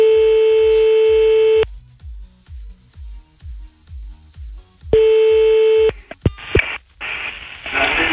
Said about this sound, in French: C'est parti, on appelle le premier de ce soir à 23h36.